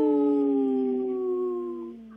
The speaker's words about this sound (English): I thought it was going to be a single howl today.